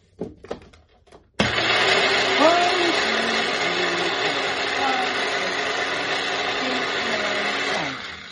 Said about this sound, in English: You don't worry about the olive oil. Potato's going to absorb it. Okay, and let's pulse this.